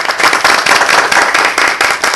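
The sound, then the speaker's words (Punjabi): An audience claps in applause for a 194-year-old tortoise: loud, fast, slightly rhythmic clapping that continues without a break. “ਤਾੜੀਆਂ ਨੇ ਤੁਹਾਡੇ ਲਈ ਭਰ ਭਰ ਕੇ, ਤੁਹਾਡੇ ਵਾਸਤੇ ਕਲੈਪਿੰਗ।”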